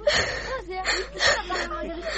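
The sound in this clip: A girl crying, with whimpering, voiced sobs that swell and fade in a few uneven bursts, fairly loud throughout.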